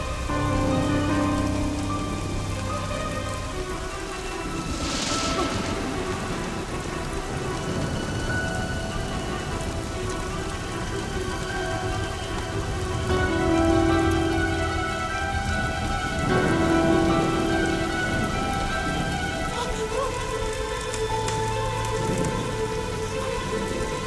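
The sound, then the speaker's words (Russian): Heavy rain falls at night, a loud dense hiss of drops on surfaces that runs steadily throughout, with low rumbles of thunder. “На улице сильный дождь.”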